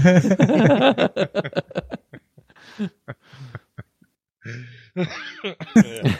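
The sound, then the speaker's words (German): A few short, rough coughs break up brief voiced throat sounds, with sharp bursts separated by quiet gaps and a final cluster of raspy noise toward the end. “Entschuldigung. Ja, raus damit. Ein Husten zum Rausschneiden.”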